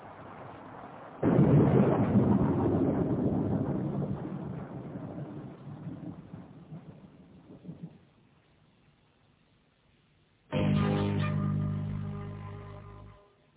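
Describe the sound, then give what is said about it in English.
Rain falls with rumbling thunder in a loud, steady wash that builds, then slowly fades over several seconds. After a quiet gap, a second loud burst follows. “It was 10 o'clock, and it was raining. I hate the rain.”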